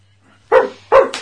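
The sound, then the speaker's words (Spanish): A dog barks loudly, giving two sharp barks in quick succession over a faint steady low hum. “Ladró muy fuerte.”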